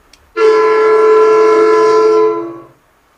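A train horn sounds one loud, sustained blast of about two and a half seconds, a steady rich chord that ends in a short fade, preceded by a faint click.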